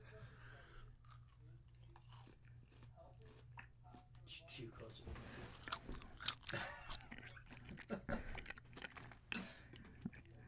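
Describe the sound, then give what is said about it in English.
A 100 Grand candy bar is unwrapped and bitten right beside the microphone. Many crinkling and crunching clicks grow denser and louder toward the end, with quiet talk alongside. “I realize for sake of listener immersion, I should be like opening it like right here. Absolutely. Next to the microphone. Okay. We're getting into some ASMR stuff or whatever. Oh, gosh. All right. I've got the 100 grand, and here goes.”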